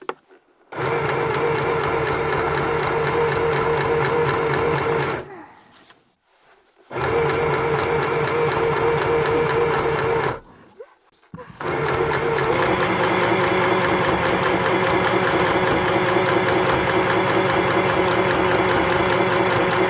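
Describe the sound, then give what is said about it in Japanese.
Sewing machine stitching small, detailed parts: a fast, even mechanical whir running in three long bursts separated by two short pauses, heard alone. “細かいところ縫うのが多めな箇所なので、たくさんの小気味いい音を楽しんでください。”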